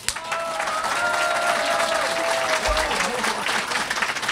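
A large live audience at the Cité des Congrès applauds at a classical music event, a broad, sustained rush of clapping that swells in quickly and stays strong and even.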